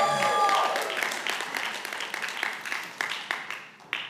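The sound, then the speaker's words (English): Audience applause at a church service: a dense wash of clapping that gradually thins out into scattered, separate claps as it fades. “Come on, let's give him a round of applause. Come on, can you give it up for Jesus one more time?”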